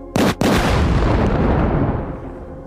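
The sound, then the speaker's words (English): A bomb explosion sound effect bursts out suddenly and loudly, breaks off for an instant, then becomes a heavy roaring rumble that fades over about two seconds, with no voices. “Drop a bomb for that.”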